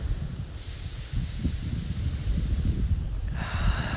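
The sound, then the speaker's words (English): A deep breath taken during guided meditation comes as a slow, airy, hissing rush of air that stays steady throughout, with no talking. “And take another deep breath.”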